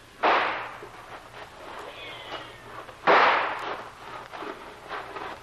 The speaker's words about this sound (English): You signal a charge. Two fast shots and we all go.